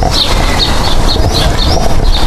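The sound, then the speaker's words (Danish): Birdsong in a park: repeated high chirps recur every half second or so over a loud, steady wash of outdoor background noise. “Ja, så har vi fuglekvider. Vi sidder nemlig ude i parken nu for at få lydhørhed for Peter Henning.”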